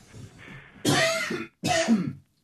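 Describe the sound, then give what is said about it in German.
Two rough coughs, each a loud harsh burst separated by a short gap, following a faint breathy throat sound, with no other sound around them. “außerdem muss ich husten.”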